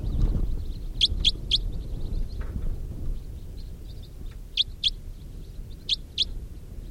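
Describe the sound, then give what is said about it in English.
A couple of wild birds fly over, giving brief high chirps in a few separate clusters over a low, steady rumble, with no talk. “A couple of wild birds flying over.”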